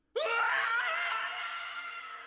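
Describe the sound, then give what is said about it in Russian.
A young monk's dying scream as he is shoved and falls: one high, strained cry that bursts in abruptly, holds steady and loud for about two seconds, then eases slightly at the end. “Предсмертный крик Луки был похож на писк новорожденного котенка.”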